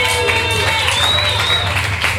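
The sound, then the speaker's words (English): An audience applauds at a tribute concert, a steady burst of clapping and crowd noise that stays at an even level throughout. “We want to thank the Johnny Martyrs for putting this on. Give them a big round of applause.”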